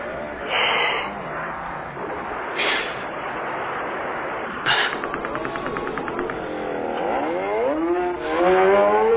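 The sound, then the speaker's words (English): Motorcycle engine sounds from a movie playing on a screen: a noisy, uneven mix with short bursts, then rising engine-like whines that climb in pitch near the end. “What is this you're watching? A motorcycle movie.”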